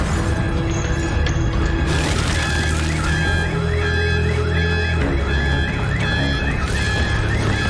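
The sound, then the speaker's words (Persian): A car alarm wails in repeating sweeps over a dense, steady roar from a car burning in a fire, the noise staying loud throughout. “اون ماشینی که الان جلوی ما داره تو آتیش میسوزه مال تو نیست؟ هست؟”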